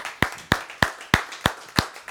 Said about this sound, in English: let's give God a hand clap.